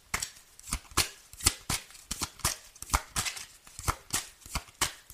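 Playing cards are shuffled repeatedly. Crisp riffling bursts come in a steady, brisk rhythm, many of them in quick succession, with no talk.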